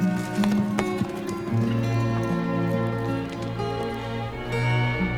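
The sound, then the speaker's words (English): Hoofbeats of a chestnut horse galloping off up a track, quick irregular thuds over sustained musical tones, fairly quiet throughout. “The younger Jack watches Ennis mount his chestnut horse and gallop off up a track.”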